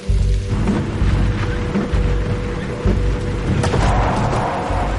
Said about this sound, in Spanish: Cuidado, que esto se pone muy malo con la lluvia.